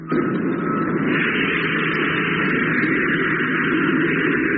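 A spaceship's rocket motor firing: a steady, loud roaring rumble with a hissing edge that starts abruptly and holds evenly throughout, with no voices.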